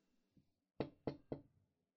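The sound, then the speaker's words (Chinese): Three sharp, evenly spaced knocks on a door, fairly loud and alone, preceded by a faint light tap. “谁啊？谁敲门？”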